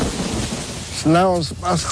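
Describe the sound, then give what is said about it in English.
A great storm of heavy rain and rumbling thunder forms a loud, steady wash of noise throughout, with a voice speaking over it in the second half. “So the gods destroyed these people by means of a great storm.”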